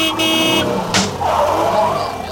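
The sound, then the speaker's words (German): A coach bus rounding a curve: steady broad engine and road rumble throughout, with a short bright swish about a second in. “Vorsicht, Autokar, da in die Kurve!”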